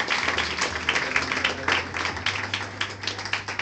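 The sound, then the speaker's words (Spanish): Congregation applause at a church teaching service: a moderate, uneven patter of many hands, with sharper individual claps poking out as the level swells and dips throughout, no talk over it. “No, aplauda al Señor, apláudalo. Fuerte el aplauso.”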